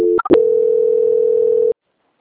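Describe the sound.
Telephone line tone during a call transfer: a couple of brief blips and clicks, then a loud, unchanging tone sustained for roughly a second and a half that stops sharply into silence.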